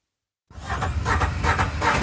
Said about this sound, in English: A UTV engine starts up on a cloudy day in South Presidio County.